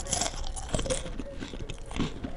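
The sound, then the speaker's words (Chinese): Someone eats a crunchy cookie, giving a few crisp bites and irregular crackling chews, fairly faint, with no talk. “很快的，女孩沉浸在书本的文字里，忽然她听到了吃饼干的声音。”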